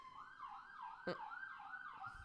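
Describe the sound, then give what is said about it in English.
An emergency vehicle siren on Coronado Island: a faint, wailing tone sweeping up and down in repeated cycles, with a brief thump partway through. “sorry, there's just a siren. Just another Coronado siren. We get a lot of sirens”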